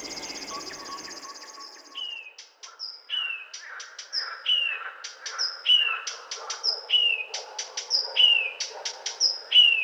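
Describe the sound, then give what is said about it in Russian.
A river warbler sings its cricket-like song, a long run of high, dry, rhythmic chirping notes repeated many times at a steady pulse, heard on its own without voices. “это песня птицы. Называют ее речным сверчком. И правда, как настоящий сверчок.”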